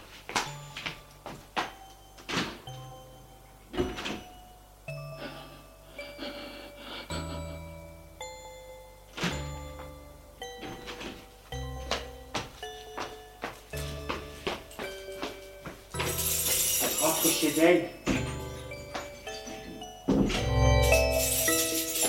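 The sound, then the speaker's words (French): A door being shut and locked with bolts and security chains: a long series of quiet clunks, metallic clicks and jingling rattles, with louder, noisier bursts near the end. “Ferme la porte en mettant les verrous et les chaînes de sécurité.”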